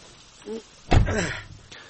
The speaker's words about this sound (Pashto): نو دا ډاله ولې نه بندېږي؟ لږه ټینګه وه، وروره بندېږي.